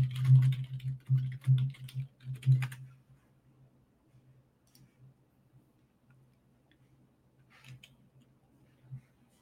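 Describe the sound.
Rapid typing on a computer keyboard while data is pulled up: a dense run of many quick keystroke clicks for about two and a half seconds, then quiet with a low steady hum and one or two faint stray taps.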